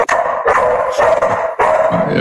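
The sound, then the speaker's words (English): A dog barks at someone at the door, a few loud, sharp barks in quick succession with short gaps between them, with no talk. “My dog. Yeah, someone at the door.”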